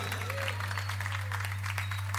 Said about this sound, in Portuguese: aplauda ele